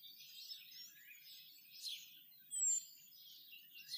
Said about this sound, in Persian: ناگهان یک صبح صدای پرنده ای رو شنید.